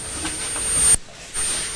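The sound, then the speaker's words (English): Loud, broad hiss of a toy train blowing steam, steady and rushing, briefly dropping out near the middle before resuming. “What is the choo-choo doing? It's blowing. Is it blowing steam?”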